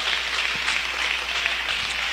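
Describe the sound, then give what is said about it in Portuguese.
Congregation clapping hands in praise during a church worship service, a dense, steady patter of many hands that holds at an even level throughout the short stretch with no voices on top. “Que Deus abençoe, poder sentar um instante e louvar a Jesus com as palmas.”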